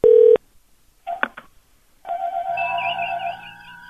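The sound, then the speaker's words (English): A telephone number is dialed: a loud keypad tone, then a few quick shorter tones, then a steady electronic tone that holds to the end. “I'm going to call from a different phone number.”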